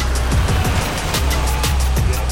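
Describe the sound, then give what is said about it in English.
A car drives along as a radio drama sound effect, its low engine rumble steady and continuous, with a few brief lower swells. “The Master's crew drives Veronica to the Four Seasons.”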